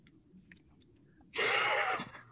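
A single loud, breathy cough bursts out after a quiet stretch of faint background noise. It is a rough, noisy blast lasting under a second that ends abruptly.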